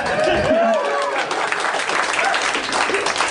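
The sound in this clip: Audience applause, a dense, steady wash of clapping with a few voices rising over it, continuing at an even level throughout.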